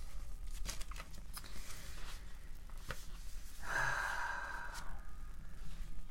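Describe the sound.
A slow, deep breath is drawn during a guided relaxation exercise, rising into a soft, airy rush of breath that lasts about a second over faint, steady background noise.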